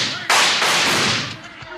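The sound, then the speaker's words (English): In a Western audio drama, a gunshot shoots a gun out of a man's hand: one loud, sharp crack followed by a long, noisy decaying tail over a steady hiss. “Oh, thank goodness, Mr. Hickok, you shot his gun out of his hand.”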